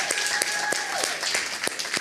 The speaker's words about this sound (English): y'all give a round of applause for Miss Bercy